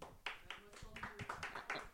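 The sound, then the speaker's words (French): A few scattered claps from a live show audience after a guess about a discothèque, sounding as sharp separate bursts in an uneven rhythm with a voice briefly audible among them. “Ah, on a quelques applaudissements.”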